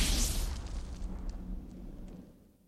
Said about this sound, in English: He's blown to pieces as the missile in his breastplate explodes.